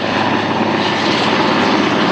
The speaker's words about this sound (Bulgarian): В 3:30 следобед в гасенето се включи и хеликоптер «Кугър» от авиобаза Крумово.